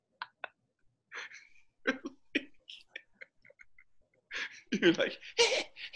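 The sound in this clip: A voice imitates exasperated, out-of-breath breathing. A few short, sharp huffs come first, then a louder, denser run of gasping breaths and breathy vocal noises near the end.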